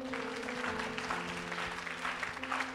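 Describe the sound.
A church audience applauds, a steady patter of clapping hands that runs throughout, fairly faint, with a sustained low tone humming beneath it.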